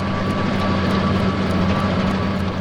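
A truck of a border guard alarm unit at the East German border gives off a loud, steady engine roar with a deep hum underneath, holding constant from start to finish.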